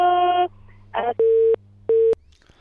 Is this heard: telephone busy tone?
yes